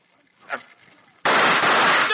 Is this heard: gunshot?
yes

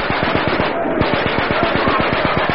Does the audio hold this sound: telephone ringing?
no

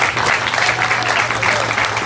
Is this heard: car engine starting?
no

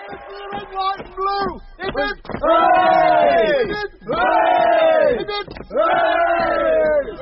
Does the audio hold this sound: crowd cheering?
yes

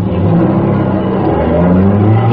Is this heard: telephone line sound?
no

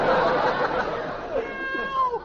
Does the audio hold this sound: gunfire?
no

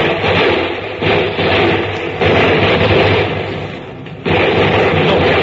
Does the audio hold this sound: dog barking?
no

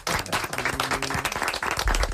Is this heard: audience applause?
yes

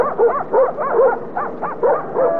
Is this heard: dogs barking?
yes

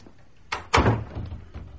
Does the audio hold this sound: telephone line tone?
no

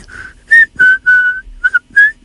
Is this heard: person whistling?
yes

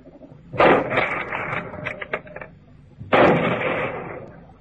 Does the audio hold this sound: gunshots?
yes

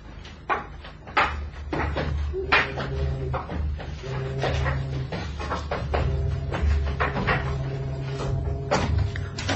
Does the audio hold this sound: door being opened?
yes

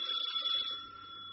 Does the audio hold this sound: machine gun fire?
no

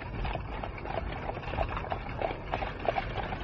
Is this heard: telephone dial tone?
no

